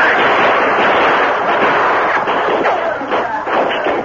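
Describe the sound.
Gunfire fills a shootout in a dark tunnel as a dense, loud, continuous roar of shots. Several sharper bursts stand out toward the end.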